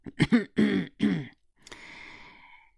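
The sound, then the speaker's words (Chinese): A man coughs and clears his throat in a few short, rough bursts close together, then lets out a longer, breathy exhale that fades away. “万主任咳嗽了两声”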